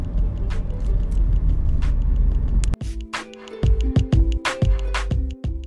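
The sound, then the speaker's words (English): A car is heard from inside the cabin while driving. A steady low road rumble fills the first half, then gives way to a sparser pattern of sustained hums and sharp clicks. “So today's pod, in terms of the quality of sound, might be a little bit different because, as I said, I am driving.”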